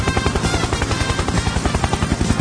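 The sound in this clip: A helicopter flies overhead, its rotor beating in a fast, steady, unbroken thump over a dense engine whine. The pulses are loud and even from start to end, with no voices.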